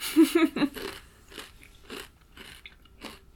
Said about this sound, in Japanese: おつまみ食べさせてください。いただきます。